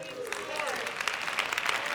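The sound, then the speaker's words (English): A church audience clapping their hands during a service, a soft, steady patter of many overlapping claps with a voice heard over the opening moments. “Come on, give him a hand clap offering.”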